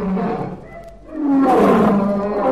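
A lion roars as a sound effect in a children's story: a deep, loud, growling roar that sags briefly, then swells again into a stronger, sustained rumbling bellow, with no voices.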